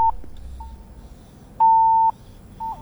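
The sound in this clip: Beeping tones on a phone line: a few short, clear mid-pitched beeps and one longer steady tone, standing alone over a faint low background rumble.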